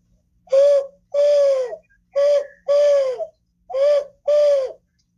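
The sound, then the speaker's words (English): A wood pigeon's call imitated by a person blowing through folded hands: six hollow, tonal coos in a steady rhythm, each note loud and clear with short gaps between them. “either like by whistling or like with my two hands, how I fold them and then do like, that would be like the normal wood pigeon.”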